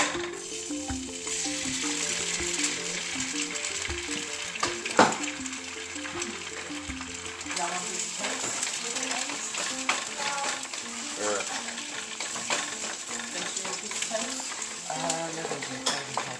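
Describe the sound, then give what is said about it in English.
An egg is scrambled and stirred in a frying pan. Steady sizzling runs under many small scrapes and taps of a utensil against the pan, with one louder clack partway through. “All right, my egg's done. Now it's time for the scrambly. Right, now I'm going to make a scrambled egg for Toby.”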